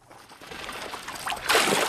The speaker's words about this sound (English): Penguins jump out of the icy water, then waddle across the snow.